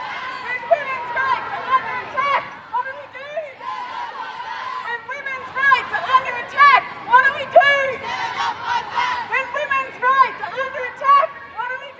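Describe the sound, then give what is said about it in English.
Crowd chanting at an International Women's Day march in Melbourne, heard as many overlapping voices in a steady, dense roar with loud surges throughout. “That's the sound of chants at the recent International Women's Day March held in Melbourne”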